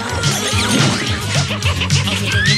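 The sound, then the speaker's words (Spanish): Glass smashing as a gremlin breaks a glass over a mobster's head, a crash buried in a dense, loud, busy mix of noise that runs without pause through the whole stretch. “Un gremlin rompe un vaso en la cabeza del mafioso.”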